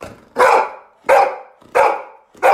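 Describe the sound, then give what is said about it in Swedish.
A happy dog barking: four loud, full barks evenly spaced with brief quiet gaps between them, each bark sharp at the start and trailing off. “Och Lovis är en väldigt glad hund, oftast kan jag själv intyga. Och hon låter så här när hon är glad.”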